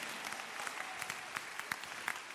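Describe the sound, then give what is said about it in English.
Audience applause during a church sermon: steady, dense clapping at low volume, with a few sharper individual claps standing out. No voices are heard. “If you're clapping, clap. Your clapping is also your little contribution.”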